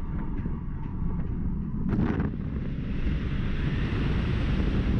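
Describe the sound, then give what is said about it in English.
A gust of wind rushes over riders at the top of the Orion giga roller coaster, about 300 feet up, a steady windy roar that thickens into a fuller whoosh after a few brief clattering knocks. “Now tell me that does not sound like a rocket ship at the end. Tell me you realize that you have screwed yourself when you're at the top and you hear that gust of wind”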